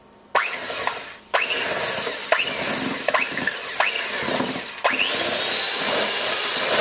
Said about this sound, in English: Now add 2 teaspoons of vanilla essence. Get an electric mixer, if you've got one, and just start mixing until this is creamy.